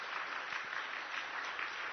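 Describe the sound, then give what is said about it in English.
Audience applause celebrating a couple's engagement announcement: a quiet, even patter of many hands clapping without pause for about two seconds. “That is not enough enthusiasm. They have dated over 10 years, all right? Let's give them a big round of applause.”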